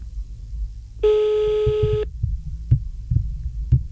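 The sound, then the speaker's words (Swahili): An unanswered phone call during a radio call-in: a single buzzing ring tone lasts about a second, followed by soft, low thumps with no voices. “Wewe ushiki simu, wacha nichuku ingine. Wacha nipige ingine. Uchukui simu.”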